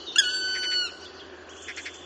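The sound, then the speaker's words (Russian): An eagle-owl calls at night with wavering, moaning cries in a few short tonal bursts over a quiet, steady background hum. “что-то с Филином нашим неладно. Каждую ночь стонет и охает.”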